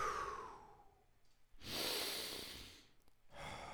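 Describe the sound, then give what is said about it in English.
Slow, deep breathing with long airy breaths, a drawn-out exhale fading away, then a full inhale and the start of another breath, with no talking. “let's take a couple of deep breaths.”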